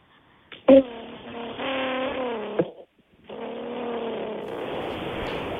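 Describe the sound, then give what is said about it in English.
A human voice imitates a car engine revving, with a buzzy, harmonic growl whose pitch wavers up and down through one long burst. After a brief pause, a second sustained rev runs to the end. “Can you please give me your best rev noise?”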